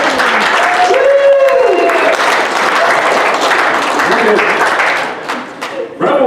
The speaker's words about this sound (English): Give them a hand if you didn't come over to the fellowship. Give them a hand!